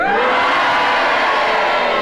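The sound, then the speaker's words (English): A studio audience at a panel game show cheers and boos together on cue in response to a contestant's challenge. The result is a loud, continuous mixed roar of voices that stays steady throughout. “And if you agree with Kenneth Williams' challenge, will you cheer? And if you disagree with his challenge, will you boo? And will you all do it together now?”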